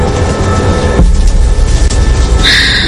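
Steady loud rumble of a train carriage as it passes under a bridge. The low roar shifts abruptly about a second in, and a high, steady whine enters near the end.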